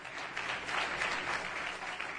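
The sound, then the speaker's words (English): An audience claps its hands during a church worship service, a fairly quiet, dense and continuous patter of many hands that holds steady throughout. “Would you clap your hands unto the Lord here today?”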